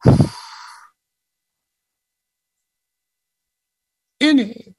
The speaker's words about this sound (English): So we're going to exhale through our mouths.